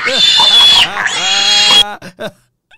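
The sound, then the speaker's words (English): A pig squeals and grunts loudly in a rapid, harsh run of high oinks, then gives a few short separate grunts before falling quiet. “Where that pig at? Where that pig at? Get that pig up out of here.”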